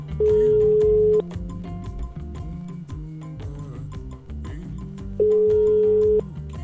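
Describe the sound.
Ringback tones while a telephone call is being placed: two long, steady, even beeps, each about a second, spaced roughly four seconds apart over continuous background sound.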